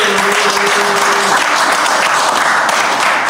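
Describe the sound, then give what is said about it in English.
An audience applauds and cheers for a celebrated music artist at a live show, a dense, steady wash of clapping and crowd noise that stays loud for the whole stretch, with faint tonal notes early on. “Let's make some noise for you, who you are.”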